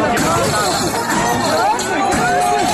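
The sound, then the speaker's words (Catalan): Loud, dense crowd roar from the riots after a mass street drinking party of about 20,000 people at Plaça Espanya in 2021, during the Mercè festivities. Many voices shout and clamour continuously throughout. “És el so d'aquell moment, el 2021, en què després d'un macrobotellot amb unes 20.000 persones també hi va haver baralles, agressions i danys a mobiliari de la plaça Espanya.”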